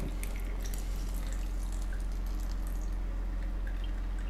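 Liquid is drained off a can of mackerel, a steady soft trickle with faint drips running without pause, no talk over it.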